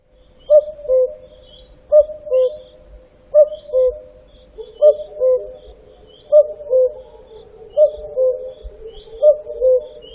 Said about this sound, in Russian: Кукушка.